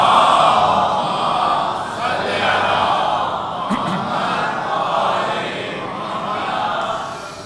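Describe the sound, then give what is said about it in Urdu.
An audience at a religious gathering loudly recites salawat in unison, a dense, continuous mass of voices that swells and eases in waves throughout. “خاص طور سے بے گناہ اسیران ملت کی رہائی کے لیے، بآواز بلند تر صلوات”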